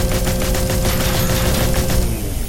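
Rapid, continuous gunfire in a video game where shooting is held down on the space bar, a loud, evenly repeating stream of shots with no pause.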